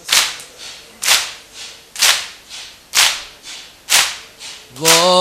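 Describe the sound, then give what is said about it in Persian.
Rhythmic chest beating at a Shia mourning ritual: sharp, loud slaps in a steady pattern, with strong and softer strikes alternating about twice a second. A voice comes in at the very end. “گریه کنه گریه کنن سینه زن آسینه بزن.”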